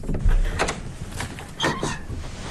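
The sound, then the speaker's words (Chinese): A room door is eased open quietly at night, giving a soft bump and a few muffled scraping, creaking movements at low to moderate loudness. “等孙老师查完房后，天阳先悄悄打开了房门。”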